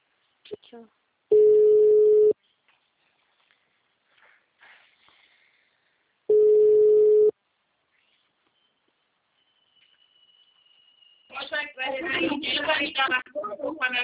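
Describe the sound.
A telephone rings as two long, steady electronic tones about five seconds apart, separated by near silence. After a quiet pause, a person starts talking.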